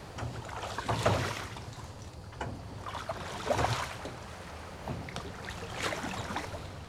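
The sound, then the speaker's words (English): A rowboat being paddled away in a video game: a few soft splashing strokes rise from a steady wash of water and wind, with no voices. “You could just do that? Watch your only son paddle away.”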